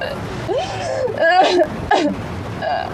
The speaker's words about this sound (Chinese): 别哭了，得给自己呛着。